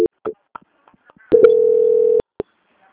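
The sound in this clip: A steady telephone line tone sounds as a bank call is being transferred. A few short clicks and blips lead into one flat beep of under a second, and a single click follows.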